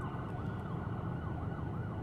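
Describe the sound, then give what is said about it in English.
Ambulance siren sounding in traffic, a steady up-and-down wail held over dense low road rumble, fairly faint throughout. “the person to my right, there was a lane where they could have pulled over, but they just stopped right beside me and blocked the ambulance.”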